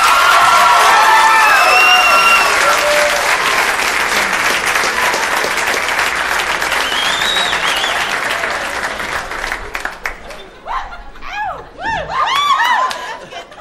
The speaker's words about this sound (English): Ladies and gentlemen, make some noise for Bo Burnham.